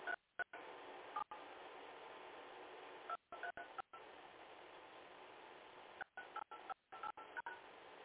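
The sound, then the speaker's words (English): Telephone keypad tones sound as a PIN is keyed in. Several steady electronic beeps are separated by short silent gaps, with a thin, narrow-band telephone-line quality and no speech. “Please re-enter your pin.”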